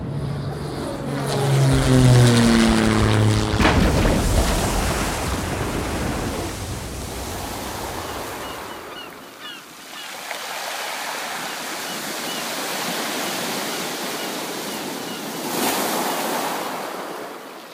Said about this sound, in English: Oh, and enjoy the emergency landing.